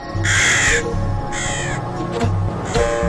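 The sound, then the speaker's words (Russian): A crow caws in a few loud, harsh, rasping calls separated by short pauses. “Вскоре прилетела ворона и радостно сообщила:”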